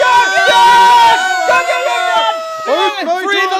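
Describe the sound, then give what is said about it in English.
A rioting crowd in chaos as people rip lumber from a casino: several loud, overlapping high-pitched voices yell and whoop, wavering and breaking off, then surge again toward the end. “Chaos ensued. The people ripped the lumber from the casino, but Mr. Swedish was trampled in the chaos.”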